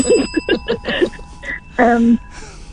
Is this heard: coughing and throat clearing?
no